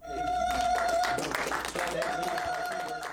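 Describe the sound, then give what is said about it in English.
Applause from Kiowa leaders and Lawton educators celebrating the launch of a new Kiowa language class, with dense clapping running throughout and voices mixed in. “That's the sound of Kiowa leaders and Lawton educators celebrating the launch of a new language class beginning this fall.”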